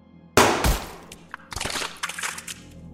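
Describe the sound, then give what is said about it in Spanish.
A revolver gunshot as a man shoots himself under the chin: one sudden loud bang that rings and decays, followed by scattered softer thumps and rustling. “Ben le sonríe y se dispara debajo del mentón.”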